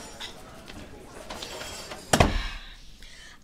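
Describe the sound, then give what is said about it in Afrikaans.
A door is shut behind someone entering a room, landing as one sharp, solid thud about two-thirds of the way through, after a stretch of quiet shuffling and background noise; a brief bump sounds right at the end. “Maak daai deur agter jou toe”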